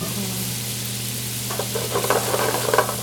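Bacon and onions frying in the kitchen of L'Etoile restaurant, a steady low hum at first, then a crackling, spitting sizzle that builds through the second half.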